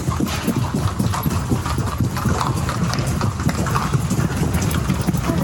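Racehorse hooves clip-clop at a walk as the horses circle before heading to the trotting ring, a steady, even stream of many hoofbeats over constant background noise.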